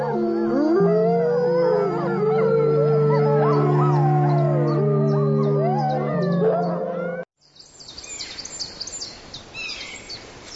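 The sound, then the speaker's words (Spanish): A wild pack of wolves howls in defence, many wavering voices overlapping in a loud, sustained chorus for about seven seconds before cutting off abruptly, followed by fainter, rougher sounds. “Pero enseguida responden con los aullidos de defensa, igual que habría hecho cualquier manada salvaje.”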